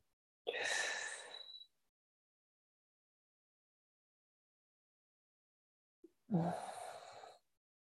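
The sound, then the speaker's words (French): A breath drawn in through the mouth and let out through the nose: a faint, airy inhale, a long silence, then a soft exhale, alone with no talk. “Inspire avec la bouche. Expire avec le nez.”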